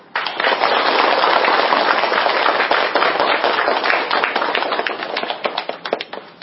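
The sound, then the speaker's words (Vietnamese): Loud, dense applause from a Buddhist lay audience welcoming a monk before a dharma talk. The sustained clapping thins toward the end into scattered individual claps. “Xin quý vị Phật tử cho một tràng pháo tay thật lớn để đón chào đại đức.”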